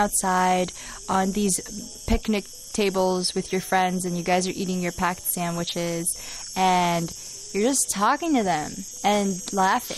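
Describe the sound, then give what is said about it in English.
Cicadas outdoors in late summer keep up a steady, high-pitched shrill drone beneath people talking casually, continuing unbroken throughout. “You guys want to listen to us with the cicada in the background? With the cicadas. Do you feel poetic hearing cicada sounds in the background?”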